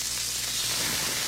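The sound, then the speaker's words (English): Smash burgers sizzling on a grill at JC's North, a steady, loud crackling hiss that runs unbroken throughout with no voices. “Fresh, juicy, award-winning smash burgers are sizzling right now at JC's North on the corner of Rockton and Riverside.”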